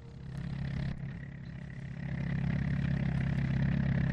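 A pickup truck engine runs with a steady low rumble, then swells louder and holds as the vehicle drives off.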